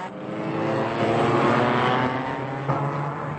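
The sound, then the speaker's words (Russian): Racing car engines roar around a motor-racing track as the cars approach, a dense continuous mechanical roar that swells slightly through the middle and then eases a little. “Рокот машин снова стал приближаться. Машины подрагивали вдали, как кузнечики.”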